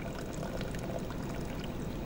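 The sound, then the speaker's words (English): Cold water pours steadily into a pot of simmered coffee and egg, making a continuous, even splashing rush that holds level for about two seconds with no talk over it. “Pour in a cup of cold water and then let it sit for 10 minutes.”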